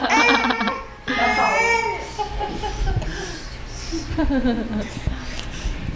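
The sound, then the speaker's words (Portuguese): A baby cries in short, high wailing bursts, with adults talking over and between the cries. “Aí, vamos pegar o chorinho dele pra vinheta.”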